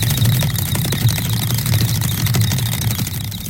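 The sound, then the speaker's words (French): A hamster runs in its plastic exercise wheel, making a steady, loud rumbling whir with quick rhythmic rattling that continues without a break. No voices are heard. “Alors ça, c'est le bruit d'un hamster dans sa roue d'exercice.”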